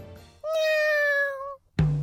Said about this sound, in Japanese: 彼は我が家のマスコットで、名前はシロ、猫です。 猫ですね。